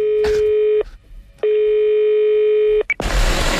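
Telephone tones sound as a call is transferred to a cell phone. Two long, steady, loud beeps are separated by a short gap, then a brief higher blip and a burst of noise follow.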